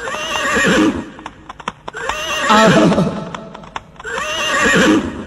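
A mare neighs three times, each shrill whinny wavering and then fading, with light hoof clops between the calls.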